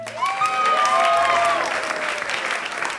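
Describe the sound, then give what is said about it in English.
Audience applause at the Columbia City Theater, a dense steady clapping from the crowd with a high whooping cheer over it near the start. “Thank you so much for coming out and supporting KEXP today. Give yourselves a huge hand.”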